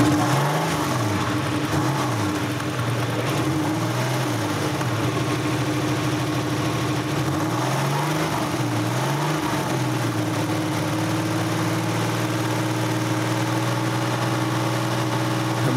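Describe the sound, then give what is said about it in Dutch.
A Porsche 993 Supercup race car, built for one-make customer racing, idles steadily. Its low engine hum holds throughout with a slowly wavering throb, and no voices are heard. “we zijn gekomen met een 993 eh, Supercup. Uh, die zijn gebouwd voor de Pirelli Supercup.”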